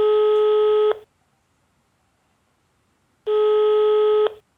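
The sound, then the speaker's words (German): Outgoing telephone call ringing out: two steady, even ringback tones, each about a second long, separated by a long silent pause, with no voices. “Sehr gut, dann lass uns doch mal die Anna anrufen. Machen wir.”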